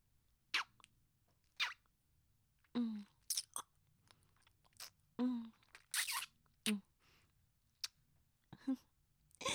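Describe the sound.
Wet ASMR mouth sounds of licking and nibbling a finger: many short smacks, slurps and soft bites, each separated by quiet pauses.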